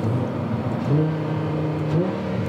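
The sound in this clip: A V10 car engine revs in a loud, steady drone with strong harmonics, climbing in pitch briefly twice. No voices are heard.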